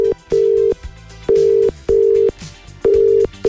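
Telephone call-progress tones from an outgoing call being dialed and ringing: a series of steady mid-pitched beeps, about five bursts separated by short gaps, with no voices.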